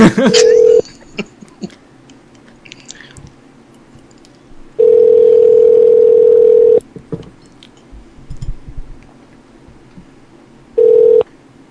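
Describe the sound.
Telephone tones for a prank call come in three bursts of a steady, even tone: a short one, a long middle one and a brief final one, separated by quiet stretches with faint clicks and rustles.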